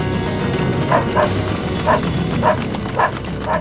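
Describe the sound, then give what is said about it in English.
A dog barking: a few short barks and yips at irregular intervals, set against a steady, noisy background. “Suddenly, they heard Fan barking loudly.”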